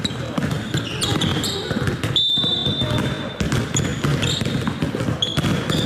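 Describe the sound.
Basketballs bouncing at a children's basketball summer camp on a mountain sports ground: many overlapping, irregular thumps in a dense, busy mix, with indistinct voices and a steady high tone running through part of it.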